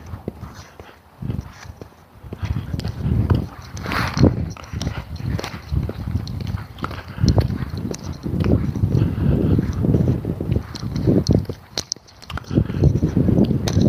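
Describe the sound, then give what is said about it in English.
Ice-cold wind blowing straight into the face of someone walking: a heavy, gusty low rumble buffets steadily throughout, with footsteps beneath it. “And I have an ice cold wind right in my face. Holy shit. Wow. Luckily it's not a big wind.”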